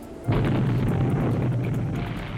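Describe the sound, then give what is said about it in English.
A heavy torpedo detonation against a liner's starboard side, close behind the bridge, bursts in suddenly. It swells into a broad, sustained rumbling roar that holds steady to the end. “An extraordinarily heavy detonation followed, with a very large cloud of smoke.”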